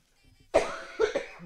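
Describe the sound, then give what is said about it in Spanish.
Someone coughs three times in quick succession. A sharp first burst is followed by two shorter hacking coughs, all fairly faint and alone, with no talk. “Uy, qué tos, madre mía.”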